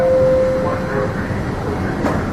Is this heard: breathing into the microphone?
no